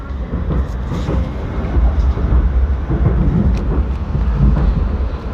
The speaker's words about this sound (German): Wir besteigen aber jetzt einen oberösterreichischen Lokalzug, der mitten durch das Everdinger Becken fährt.